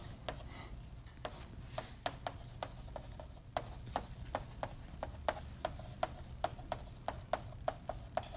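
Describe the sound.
A line being drawn on a board gives a faint, steady series of many small ticks and scratches, evenly spaced and fairly quick. They sit over a low background noise with no voices.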